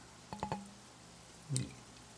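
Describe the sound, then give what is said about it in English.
Soda water splashed into a glass of scotch: three quick, faint drip-like taps with a slight ringing tone, then a pause and one brief, slightly louder liquid gush that fades fast. “You want to splash a soda then to see what happens? Well, put a little splash.”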